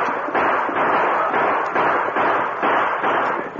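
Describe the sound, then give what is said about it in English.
Gunfire from a sheriff's posse riding in fast in a Western radio drama: many loud, muffled bursts in a rapid, fairly even string, one after another without pause. “Before the men could shoot, the sheriff and his posse rode in fast, firing as they approached.”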